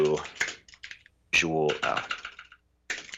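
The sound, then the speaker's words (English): Typing on a loud mechanical computer keyboard: a few sharp clicks mixed in with a person talking. “And I apologize if my keyboard is a bit loud there. Mm-hmm. I love it. Love a good mechanical keyboard.”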